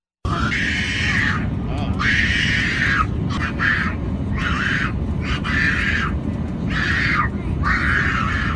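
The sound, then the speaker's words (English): A toddler screams on a flight, letting out repeated shrill, strained screams in separate bursts over a constant low cabin rumble. “a toddler screaming for 8 hours on a flight.”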